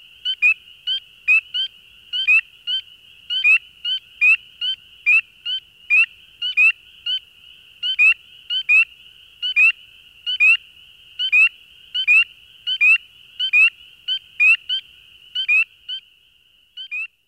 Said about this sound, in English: Spring peepers also alternate their calls, and trios as well as duos may be heard. Quite often, one male acts as a leader, with another calling almost instantly after each of his calls.